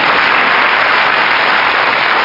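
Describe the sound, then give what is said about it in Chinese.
An audience at a lecture applauds with dense, steady clapping that stays loud and even throughout. “谢谢大家的掌声”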